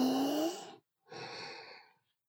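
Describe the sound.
Slow, deep breathing during a guided relaxation exercise: a long airy inhale, a short pause, then a second long breath, both soft and steady with no talk.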